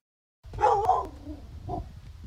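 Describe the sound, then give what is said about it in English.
A black lab pit bull mix barks at the door of a home, giving a few short, moderately loud barks with a whiny edge, separated by a brief pause. “A black lab pit bull mix named Animoosh barks at the door of Sandy Derrigan's home.”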